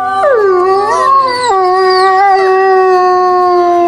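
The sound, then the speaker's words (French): A grey wolf gives one long, loud, tonal howl that dips early, wavers upward, then steps down into a steady sustained note that holds to the end, with no voices. “le loup gris”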